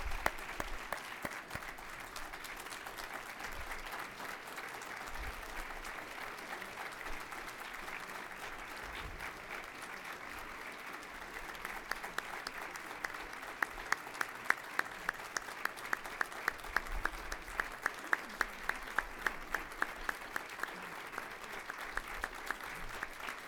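Sustained applause from an audience welcoming a Hall of Fame inductee honoured among leaders and legends of the blindness field; dense, steady clapping fills the whole stretch, with sharper individual claps standing out in the later part.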